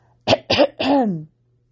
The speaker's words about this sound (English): cleared his throat.